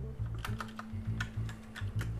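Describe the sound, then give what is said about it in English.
Typing on a computer keyboard, a fast irregular run of many crisp key clicks over a steady low hum, with no talking. “I'll type it in the chat here.”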